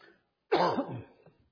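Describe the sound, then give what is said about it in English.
A single rough cough from a person with a lingering cough since COVID, a short harsh burst that rattles and trails off quickly, heard alone without speech. “One of these days, I'm going to get rid of this cough probably when I go to heaven. I've had it ever since COVID came out.”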